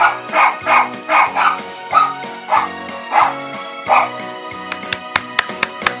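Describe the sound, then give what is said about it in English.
A pet dog barks along to a festive sing-along tune, giving many rhythmic, pitched bow-wow barks in a row, then a run of sharper, shorter yips and clicks toward the end. “that's my dog, Teddy, the official mascot of the Savage Nation, barking for you jingle bells.”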